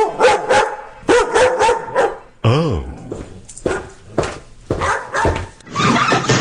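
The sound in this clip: A dog barks in quick clusters of sharp, loud yaps, broken by one high, wavering whine partway through, while a person briefly exclaims.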